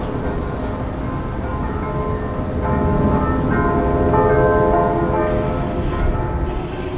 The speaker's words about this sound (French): J'adore ce son. C'est le son des cloches de l'église orthodoxe qui sonnent à 8h du matin et à 7h le soir.